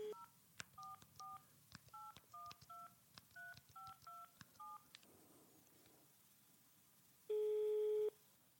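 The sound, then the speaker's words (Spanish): A telephone number is dialled on a touch-tone keypad: many short, bright beeps in quick succession, then a quiet pause and a single longer steady tone. “¿Marca un número al azar nada más? Deja marcar.”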